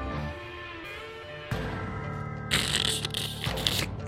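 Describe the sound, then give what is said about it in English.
A slide survival belt's buckle ratchets in a few bursts of dry mechanical clicking, heard over music with sustained, steady tones. “That's the ratcheting sound.”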